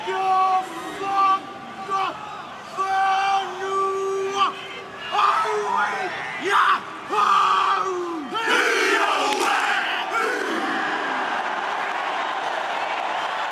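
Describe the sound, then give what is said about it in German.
The Haka, the Maori war dance, is performed by New Zealand's national rugby team. A single voice calls out in drawn-out shouts, a group answers with forceful collective shouts, and a loud crowd roar follows. “Was du hier hörst, ist der Haka, der maorische Kriegstanz.”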